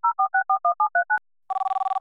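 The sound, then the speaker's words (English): Touch-tone telephone dialing while placing a call: eight steady two-note keypad beeps in an even rhythm, a short pause, then a rapid run of short pulsed tones on the line. “She's in my speed dial.”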